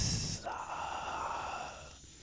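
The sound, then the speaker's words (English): A voice imitates a whispered exhale, a soft, airy, drawn-out breath that tapers away over about two seconds, voicing a word from a fantasy game. “you catch your breath and you cough and a word oozes out of your mouth. And it sounds kind of like a really whispered exhale.”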